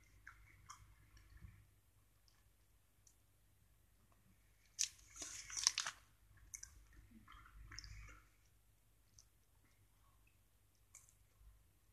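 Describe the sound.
Chewing and biting white chocolate: a faint cluster of crisp, crunchy bites near the middle, with a few softer mouth sounds before and after. No talking.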